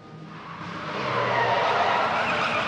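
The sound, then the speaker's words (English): A car skids to a halt in a crescent-shaped driveway after speeding around a corner, a broad, rushing hiss of tires that swells and grows louder, then holds steady, with no voices. “a car comes bombing around a corner and speeds towards the house, knocking over a small statue as it skids to a halt in the crescent-shaped driveway”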